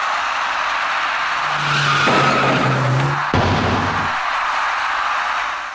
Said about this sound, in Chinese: 这位骑电动自行车的男士在左转弯的过程中被一辆由北向西右转弯的白色小客撞了个正着